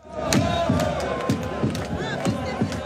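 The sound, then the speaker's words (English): Iraq football fans celebrating at the Philadelphia stadium after a World Cup loss to France, a loud crowd chanting and cheering with regular rhythmic pulses under the voices. “That is the sound of Iraq fans celebrating, even though they lost to France, and even though it was a very long night.”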